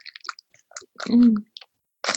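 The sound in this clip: Chewing on a pineapple-flavoured fruit biscuit pastry: one loud, crunchy burst of mastication in the middle, framed by scattered small mouth clicks and smacks, with no talking.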